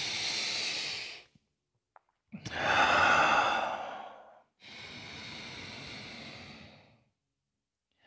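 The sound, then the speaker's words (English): Ujjayi breathing, drawn in and out through the nose with a slight throat constriction, gives a soft, rushing, hissing sound. There are three long breaths, each swelling and fading, and no talk. “So the ujjayi breath is when we're inhaling and exhaling through the nose. But it's like the slightest constriction in the throat that makes that swirling sound within the throat.”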